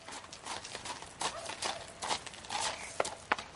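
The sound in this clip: A horse's hooves clop at a walk: many soft, uneven steps, fairly faint, with no clear voices.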